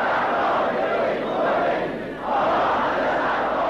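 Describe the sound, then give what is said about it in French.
A huge, dense crowd surrounds a slowly moving car along the route from the airport to Behesht-e Zahra cemetery in Iran. The roar of massed voices is continuous and loud, dipping briefly before swelling again. “C'est cette foule tout le long de l'aéroport au cimetière de Behesht e-Sahra où il va faire son premier discours qui est là, qui l'entoure, qui le suit.”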